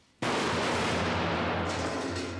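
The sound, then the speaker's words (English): Shotgun fire inside a swimming baths building: one sudden loud report followed by a sustained, noisy roar that holds to the end. “We see a shotgun. Two shots are fired and a cleaner is killed.”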